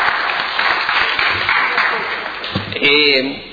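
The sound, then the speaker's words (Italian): Applause welcoming a triathlon team in a council chamber: dense, steady clapping fills nearly three seconds, then eases as a voice briefly sounds near the end. “per i risultati del team Triathlon di Dispoli, che sono qui presenti in aula, quindi mi fa piacere anche un applauso e benvenuto”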